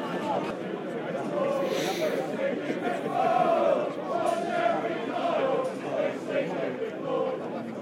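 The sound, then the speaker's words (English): Football crowd chanting in a stadium, a dense mass of voices singing together in a steady, loud roar that holds across the whole stretch with small swells. “Witchy little chant there about we've seen us on the Jeremy Kyle show.”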